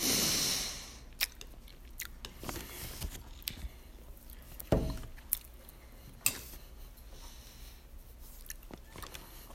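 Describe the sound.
Wax candy chewed like gum gives many soft, wet clicks and smacks at an irregular rhythm. The sounds are faint, with no talking.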